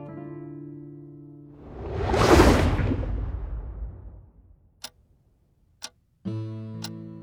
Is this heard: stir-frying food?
no

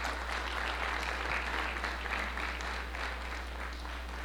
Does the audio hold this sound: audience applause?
yes

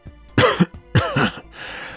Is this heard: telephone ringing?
no

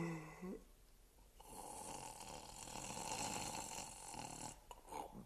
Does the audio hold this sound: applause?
no

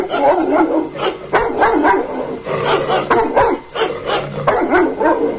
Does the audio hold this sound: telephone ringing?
no

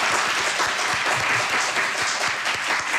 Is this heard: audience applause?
yes

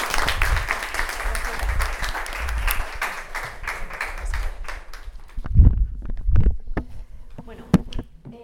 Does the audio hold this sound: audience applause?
yes

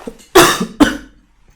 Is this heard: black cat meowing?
no

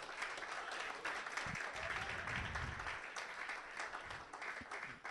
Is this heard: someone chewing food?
no

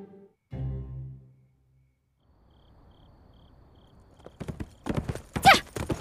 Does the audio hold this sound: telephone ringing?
no

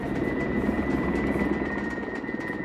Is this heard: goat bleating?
no

